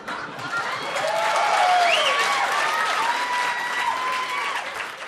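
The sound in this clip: Audience applause for a comedy team from Boston, Massachusetts, as it takes the stage: steady, dense clapping that swells slightly in the middle and carries on without a break.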